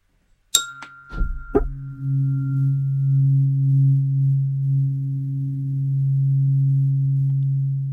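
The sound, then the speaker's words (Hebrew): Om-tuned meditation tone: a few bright metallic clinks ring out, then a low, steady, smooth hum with a soft overtone sustains evenly to the end. “את המדיטציה עצמה אני אלווה גם עם צליל אום, שיש לי אותו גם בקולנים, הוא נשמע ככה.”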